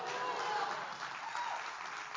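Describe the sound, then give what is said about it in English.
An audience claps during a church service, dense and steady for about two seconds, with some voices mixed into the applause. “Clap your hands and say hallelujah.”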